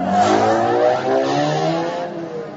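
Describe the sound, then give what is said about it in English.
A speeder bike engine starts and turns, giving a loud, whining roar with layered droning tones that holds steady and then gradually fades. “Finally, Ben activated the bike and turned.”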